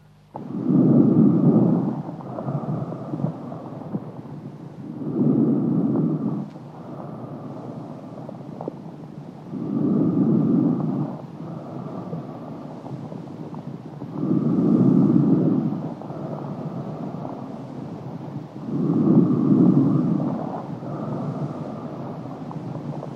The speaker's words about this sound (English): Vesicular breath sounds.